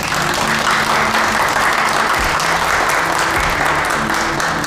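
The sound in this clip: A crowd applauds to welcome a deputy mayor who is about to speak: loud, dense clapping from many people, sustained at a steady level throughout.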